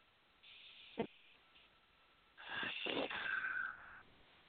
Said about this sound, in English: So just close your eyes with me for a second. Let's take a deep breath together.